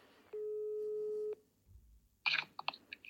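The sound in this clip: A telephone ringback tone sounds while someone is being called: one steady, long tone lasting about a second, followed by a pause and then a short burst of clicking and rustling noises.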